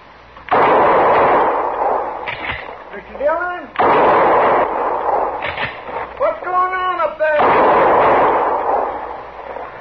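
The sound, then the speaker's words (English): Gunshots fired at a man in a western radio drama: three loud blasts spaced a few seconds apart, each with a long, noisy ringing tail, and a voice speaking between them. “Somebody was shooting at me, Chester.”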